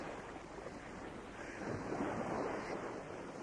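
Ocean waves make a steady rushing wash of broad noise that swells a little midway and then eases, fairly faint, with no voices.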